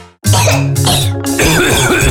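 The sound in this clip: Harsh coughing in a cough medicine advertisement: a short silence, then a few loud, rasping coughs in quick succession, with no talking.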